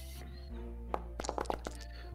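Dice rolled for an attack in a tabletop role-playing game give a short burst of sharp clicks and clatters, a handful of hits close together, over a low steady hum.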